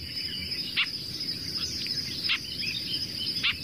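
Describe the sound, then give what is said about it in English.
Three short, dry chucking calls of a skulking bird of dense scrub and reed beds, spaced about a second apart over a steady high insect buzz. “You can hear these chucking calls, and they like really dense scrub and reed beds. And you can hear that call.”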